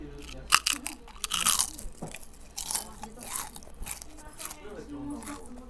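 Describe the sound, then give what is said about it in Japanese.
Large pieces of crispy deep-fried duck skin crunch loudly as they are bitten, with a few sharp crackling bites and chewing between them while people talk. “今度は鴨 皮パリパリ揚げ、思ったより皮がねでかいです。さあ行ってみましょう。”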